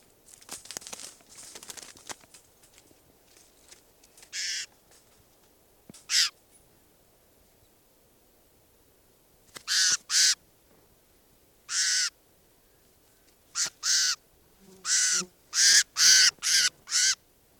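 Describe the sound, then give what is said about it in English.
A bird being handled gives many loud, harsh, rasping caws in short bursts that cluster toward the end, with faint rustling of handling between them and no talk. “I'm gonna try and handle bird 745 here.”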